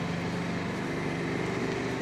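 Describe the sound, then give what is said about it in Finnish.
Engine noise inside a tunnel with strong echo, a steady, loud, low droning rumble with a faint tonal hum, unbroken throughout and with no voices. “nyt mä ihmettelen, että mikä toi moottori ääni on.”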